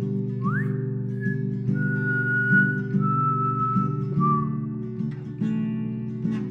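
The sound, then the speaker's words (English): Someone whistles a simple tune, opening with a quick upward swoop and then holding a few long, clear notes that step slightly lower, over a steady low droning tone. “Give a whistle.”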